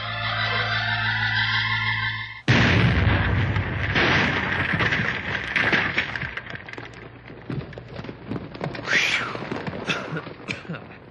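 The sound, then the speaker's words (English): An explosive blast in a mine tunnel bursts in suddenly after a steady tonal passage, followed by a long, loud, crackling roar and rumble that slowly thins toward the end. “get all set up at the end on Tunnel B there. We'll blast as soon as you're ready.”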